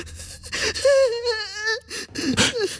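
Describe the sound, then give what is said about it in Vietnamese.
A child cries alone, starting with a few sobbing gasps, then a long wavering wail, then shorter whimpering cries; loud and emotional. “Đừng, đừng khóc.”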